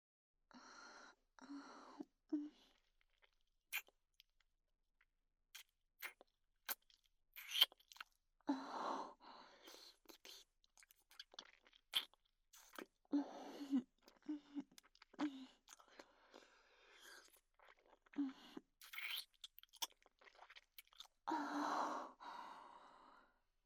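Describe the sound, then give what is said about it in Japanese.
Wet mouth sounds of a tongue moving through saliva: many soft, irregular smacks and clicks with breaths between them, quiet throughout. “唾液を舌に絡ませるように動かして”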